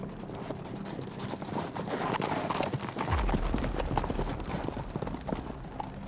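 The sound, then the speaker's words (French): Hooves of many Mamluk cavalry horses galloping: a dense, continuous drumming of hoofbeats that grows louder and heavier about halfway through, with no voices. “une caste de cavaliers envoyés par l'Empire ottoman pour soutenir l'allié égyptien. Dix mille hommes à cheval viennent barrer la route des Français.”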